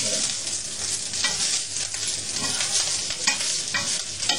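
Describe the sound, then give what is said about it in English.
Fried rice is stir-fried in a pan and turned over to its other side, giving a continuous bright sizzle broken by repeated scraping stir strokes, with no talk. “now we turn it around the other side. The fried rice should be dry, understand me? Not wet, huh?”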